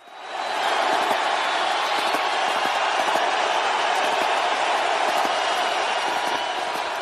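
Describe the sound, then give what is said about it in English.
A stadium crowd at a national championship football game roars as the president comes out onto the field. The noise swells quickly at the start, then holds as a loud, continuous wash of cheering. “El Presidente was there, and when he came out onto the field, the crowd erupted.”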